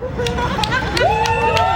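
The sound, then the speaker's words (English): A crowd gathers at city hall for a rainbow flag raising during Pride Month, with a steady babble of voices and people talking and calling out over one another. “That's the sound of Richmond Mayor Danny Avula and city council members raising the rainbow flag in honor of Pride Month.”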